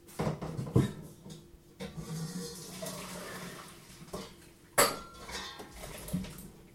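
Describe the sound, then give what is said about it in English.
Metal clanks and clatter from a saucepan of drained potatoes lifted off the stove, with a few sharper knocks standing out against ongoing softer kitchen rattling. “So what I'm going to do now is I'm going to lift this pan off of the, hopefully it's not hot on both sides.”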